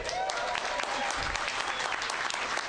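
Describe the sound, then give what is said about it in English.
The audience applauds at a legislative hearing. Steady, low-level clapping continues evenly through the whole clip. “you will understand in a few moments why I will ask you to please keep the applause to an absolute minimum, perhaps none, for the rest of this hearing.”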